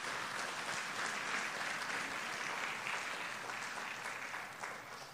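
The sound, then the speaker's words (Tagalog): A church audience claps their hands in a dense, steady wash of applause that holds evenly throughout and eases slightly at the very end. “If you believe that, can you clap your hands to the Lord?”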